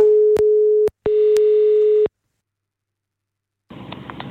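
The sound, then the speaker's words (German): Telephone line tones on a call-back: two steady, mid-pitched beeps, each about a second long and separated by a short gap, loud and alone. “Ich rufe dich gerade mal zurück.”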